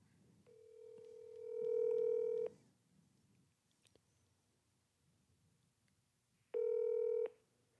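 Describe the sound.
Two long, steady telephone tones sound as a call is placed to a coach's phone, separated by a few seconds of quiet with faint background noise.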